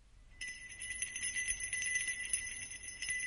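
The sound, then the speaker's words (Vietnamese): Wind chimes tinkle in a quiet, sustained shimmer of high metallic ringing that holds steady with light shifting accents for a few seconds, with no voices present. “từ dưới tầng 4, đột nhiên truyền đến tiếng chuông gió leng keng, leng keng.”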